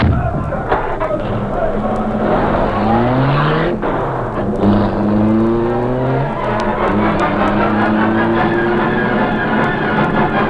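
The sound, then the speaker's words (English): A car driving away fast, its engine revving loudly and climbing in pitch through repeated rising sweeps as it shifts gears, a continuous roaring drive with no pauses. “Here's the light, Beauty. I'll drive. Hurry. They're coming.”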